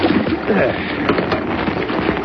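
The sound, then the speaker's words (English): Surf waves rush and break near the shore as a boat closes in for a landing on an island. A loud, continuous broad roar of water surges unevenly throughout. “No, we're getting close in. Surf doesn't sound too bad.”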